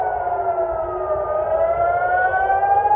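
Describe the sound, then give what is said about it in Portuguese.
An alarm siren wails without a break, a loud tonal drone with several harmonics whose pitch slowly climbs across the whole stretch. “Imagina 4 horas da manhã esse alarme aí na tua casa.”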